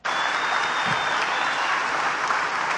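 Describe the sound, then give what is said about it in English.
Studio audience applause starting abruptly and carrying on as a loud, dense, even rush of clapping hands for the rest of the moment. “Oh, they had to turn on the applause sign. That was a little slow starting.”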